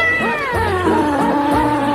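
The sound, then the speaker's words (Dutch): Cats in a basket meow loudly, several high, wavering calls overlapping one another in quick succession, with no talk. “Ja, ik doe er ook katten bij. De katten die zingen mee.”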